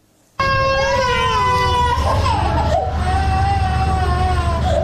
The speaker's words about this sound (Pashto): دا راپور پروختون کې د بستر ماشومانو په فریاد پیلېږي.